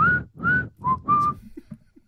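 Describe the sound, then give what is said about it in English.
A person whistles a tune close to the microphone with four clear, high, sustained notes in quick succession. The later notes are slightly lower and the last is held a little longer, then the whistling stops. “I'm going to be whistling that all night and maybe closer to the mic this time.”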